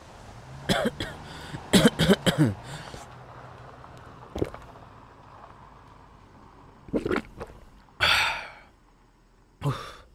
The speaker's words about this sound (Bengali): হঠাৎ আবার সে বিশ্রী কাশিটা শুরু হলো। খুক খুক করে একটানা কাশিটা হতেই থাকে।